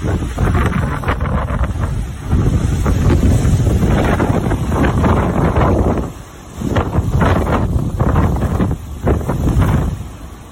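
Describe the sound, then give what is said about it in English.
Strong wind blows down from the mountain on the north side, where a fire had come down, roaring and buffeting the microphone in loud, continuous gusts with a couple of brief lulls. “So you can see that the wind's coming from the mountain. It's from the mountain.”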